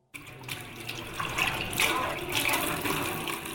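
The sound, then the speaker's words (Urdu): Running tap water while dishes are washed in a home kitchen, a steady, rushing flow that keeps a fairly even loudness throughout, with no talk. “اپنے سسرال کے kitchen میں برتن دھو رہی ہیں۔”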